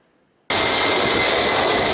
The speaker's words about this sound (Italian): È decollato nel primo pomeriggio l'aiuto concreto dell'Italia al Venezuela devastato dal terremoto. Partito dall'aeroporto di Pratica di Mare, un aereo militare è adesso in viaggio verso Caracas,